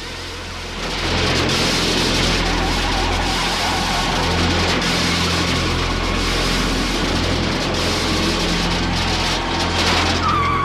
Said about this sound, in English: loses control and the car turns onto its side, still skidding along the road.